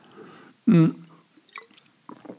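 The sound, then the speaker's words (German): A person takes one loud, wet slurping gulp from a drink. A few faint smacking mouth sounds follow. “Oh, ich muss mal einen Schluck trinken.”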